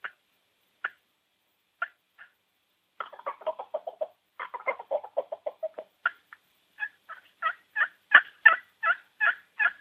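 Wild turkeys calling from the roost in the morning, with soft tree calls and putts: sparse isolated notes at first, then clusters of short calls that grow louder and more regular toward the end.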